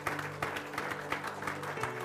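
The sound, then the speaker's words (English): Congregation clapping hands in praise during a church service: steady, rhythmic claps at an even tempo, fairly soft, over a sustained low tone. “Give God a hand clap of praise this morning.”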